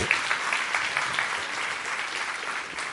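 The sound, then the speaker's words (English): Audience applause, a dense, steady wash of clapping that stays at an even level from start to finish. “Would you give her a hand, please?”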